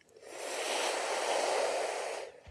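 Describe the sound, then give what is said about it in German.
Air drawn in through a rolled tongue during a breathing exercise makes a long, airy hiss. It swells in gently, holds steady for about two seconds, then stops. “Atme durch die gerollte Zunge ein,”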